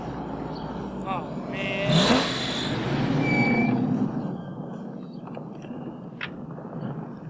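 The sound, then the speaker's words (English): An old, run-down car engine cranks, catches and revs with a sweeping rise in pitch, while voices talk over it. “Hurry up. Start your shitty car already,”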